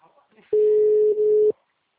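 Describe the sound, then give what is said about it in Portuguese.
Telephone busy tone: a single steady electronic beep about a second long, with a brief dip partway through, sounding alone and fairly loud. “O telefone encontra-se ocupado. Por favor, tente mais tarde.”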